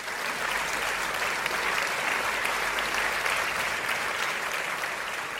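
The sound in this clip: A studio audience on a talk show gives sustained applause to welcome a guest founder visiting from Barbados. The clapping is steady and even, with no voices breaking through.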